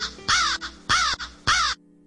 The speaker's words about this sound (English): Hear there's a crow in the background.